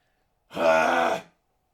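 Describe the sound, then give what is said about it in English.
A single throat clearing, a low, buzzing voiced grunt lasting under a second, heard alone against silence. “Clear my throat.”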